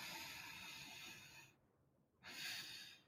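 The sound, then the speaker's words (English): A double inhale done as a calming breathing technique: a long, airy intake of breath, a brief pause, then a shorter second inhale, with no talking. “Okay, so I'm going to go through it real quick. It's a double inhale.”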